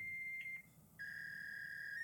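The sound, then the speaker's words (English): A fax machine's tone on a phone line: a quiet, steady, high electronic whine that briefly drops out, then resumes slightly lower and stronger, holding to the end. “Oh, it's a fax machine.”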